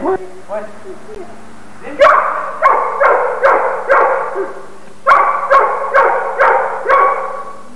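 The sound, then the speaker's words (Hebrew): A dog barks in a castle, with two runs of sharp, mid-pitched barks in quick succession separated by a short pause. The barks are loud and clear over a steady low hum. “זה הכלב שבטירה. הכלב שבטירה.”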